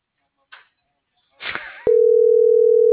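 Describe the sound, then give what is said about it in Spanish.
A steady telephone line tone sounds alone as a call is placed, preceded by two brief rustling bursts. “ya lo estoy marcando. Tengo que marcarle a ver quién le contesta primero.”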